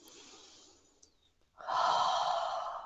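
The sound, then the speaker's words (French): Connected breathing, with each inhale following the last without a pause. A soft, airy breath is followed after a brief lull by a much louder, forceful breath that carries on to the end, with no talking. “je vais connecter en fait cette respiration. Et je vais supprimer la pause. Donc je vais inspirer. Et tout de suite inspirer.”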